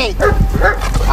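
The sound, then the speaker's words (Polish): Dogs bark during guard-dog training at Gdynia port, at an LPG terminal and aboard a passenger ferry: a quick run of sharp barks and yips, loud, with a voice talking over them. “na pokładzie pasażerskiego promu w gdyńskim porcie opiekunowie i ich czworonożni podopieczni trenują obronę i atak na pozoranta, tropienie oraz wykrywanie niebezpiecznych materiałów.”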